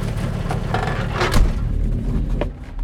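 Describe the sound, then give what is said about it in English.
Engine of an approaching Chevy Caprice gypsy cab, a low, steady rumbling drone that swells briefly in the middle before settling back. “I hear the engine before I see the car a Chevy Caprice, yellow with dark stripes, a gypsy cab.”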